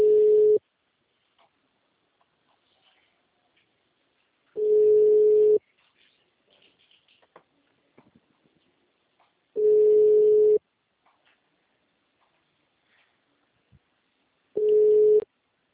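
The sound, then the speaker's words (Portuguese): A telephone ringback tone sounds while a call is being placed: four steady, even beeps of about one second each, spaced roughly four seconds apart, with near silence between them. “eu tô ligando pro cara.”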